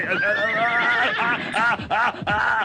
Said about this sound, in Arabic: هيا أيها الحصان، هيا. ما بك؟ ما بك؟